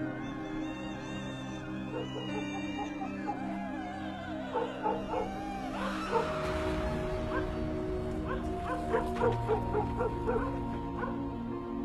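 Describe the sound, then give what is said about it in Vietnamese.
A black dog barks loudly, with many sharp barks and yips clustered in the second half over a steady bed of sustained musical tones. “Ông còn nghe có cả tiếng con chó mực, nó vẫn đang sủa lên ầm ĩ.”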